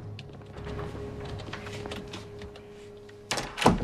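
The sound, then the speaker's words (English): A dorm room door is shut with a brief clatter and thump near the end, after a stretch of low, quiet background hum. “In their dorm, Jake's on a computer when Nance comes in and shuts the door.”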